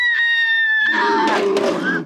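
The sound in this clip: A woman's sustained, high-pitched scream from a horror film, as her arm is forced into a meat grinder, opens loud and tonal, then turns into a rougher, noisier stretch of sound.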